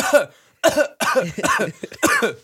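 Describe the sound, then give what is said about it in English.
A person coughing, a first cough faked and the following ones real, in a series of harsh, throaty bursts with short gaps between them and a rough, throat-clearing quality. “Sorry, I pretend to cough, and then I did cough”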